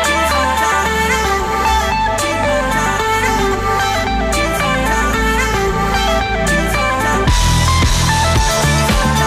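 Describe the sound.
A new pop-rock single plays loud, with dense layered instruments over a steady beat and bass. The arrangement swells and shifts into a fuller passage near the end.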